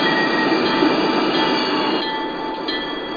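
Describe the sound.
A freight train braking, with a loud, continuous rumble of rolling wagons overlaid by steady, high-pitched wheel squeal throughout.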